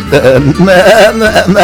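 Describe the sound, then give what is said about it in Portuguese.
A human voice imitates a young goat's bleat, a loud, quavering, nasal 'meh' cry with a wavering pitch that rises and falls repeatedly across under two seconds. “E lá vai eu, que nem cabrito, dando um berrinho”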